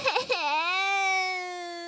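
An acted cry from a crybaby princess character in a children's story: a couple of short choked sobs lead into one long, loud wail whose pitch dips, then holds steady as it slowly fades.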